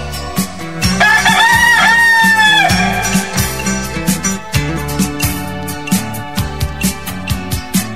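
A single drawn-out rooster crow sound effect rings out over a pulsing dance beat at a live DJ show in a bar, its warbling call rising above the steady, loud music before the beat carries on alone.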